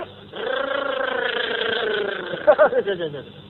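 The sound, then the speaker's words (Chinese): A voice imitates an old motorcycle engine with a buzzing, droning hum held at a steady pitch for about two seconds, followed by a few short vocal bursts. “一片腿骑着摩托车，滴滴，”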